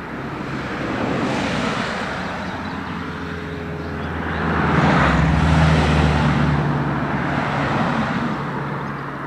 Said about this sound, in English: It's still quite busy, of course, because it's not quite TT yet, but as you can hear, fair amount of traffic.